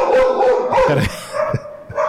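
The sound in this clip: A pet dog at home barks, yelps and howls almost nonstop, loud and insistent, with no voices over it.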